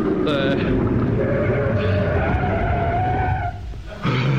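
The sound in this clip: Car braking to a stop at a curb, a loud sustained skidding and tire-squeal tone over engine noise that cuts off briefly near the end before another sound starts.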